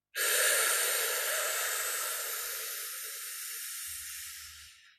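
A long, steady breath drawn in through the mouth during a calming breathing exercise for childbirth, an airy hiss lasting about five seconds that fades slightly near its end.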